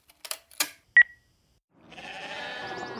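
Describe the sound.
Button clicks and a single short electronic beep from a club voicemail answering machine as it starts playing messages, followed by a sustained wavering, bleat-like sound.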